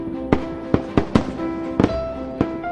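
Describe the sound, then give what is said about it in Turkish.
Fireworks at a celebration display: several sharp, loud bangs at irregular intervals, one of them a quick double crack, over a steady tonal backdrop. “Perde havai fişek gösterileriyle doldu, sevinç haykırışları yükseldi.”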